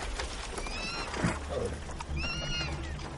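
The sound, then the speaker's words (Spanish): Horses whinny on a farm where an old man tends several of them: two high, wavering neighs rise above a steady outdoor background. “Un cuervo vuela sobre una granja. Un anciano atiende a varios caballos.”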